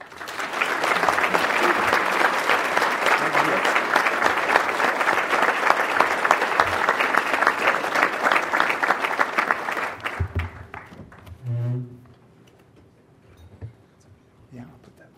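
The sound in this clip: An audience applauds to welcome a speaker to a Canadian Club podium. Sustained, dense clapping lasts about ten seconds, then dies away, and a brief voice follows in the quiet.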